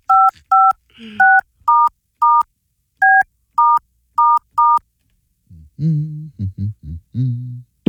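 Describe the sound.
Nine telephone keypad dialing tones beep in a quick, slightly uneven sequence, each a short, clear dual-pitched note, before a voice begins speaking.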